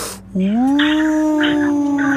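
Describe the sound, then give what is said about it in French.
A human voice imitates a Tasmanian wolf with one loud, sustained howl. The howl rises briefly at the start, then holds a steady, tonal pitch, with breathy hissing noise above it. “je vais refaire le loup de Tasmanie”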